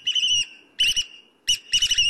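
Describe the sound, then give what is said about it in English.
Shrill piping whistles of a black oystercatcher, a shorebird, come in a few sharp repeated bursts, loud and clear with brief gaps between them. “Picture a shorebird, like this black oyster catcher, flipping rocks and hammering shells all day.”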